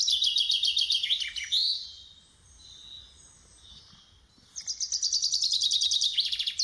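Bird song in rapid, very high trilling phrases, a fast twittering run that fades into a quieter pause and then resumes with another bright, dense trill.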